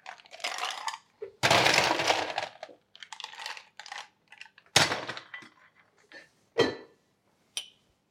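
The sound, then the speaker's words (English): Ice cubes clatter into a cocktail glass behind a bar in a few bursts of rattling and clinking. Fainter single clinks follow as the ice settles. “I'm just going to top this with a little bit of ice and finish that off with the Franklin & Sons Guava and Lime Soda.”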